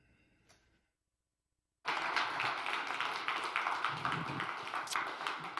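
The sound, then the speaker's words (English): After a brief hush, a church audience bursts into warm applause to welcome a visiting preacher named Steve. The clapping stays dense and steady until the end. “let's put our hands together and give him a warm Hope Ottawa welcome”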